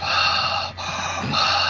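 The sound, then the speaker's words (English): A voice imitates creepy heavy breathing heard on a phone call: a continuous, rasping breath that briefly dips in the middle, then resumes, with no words spoken. “it wasn't like that heavy breathing, like when you answer the phone and like, who's there, and all you hear is,”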